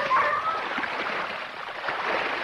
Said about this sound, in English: The dogs round a bend, leaping and stretching as they splash through the pond.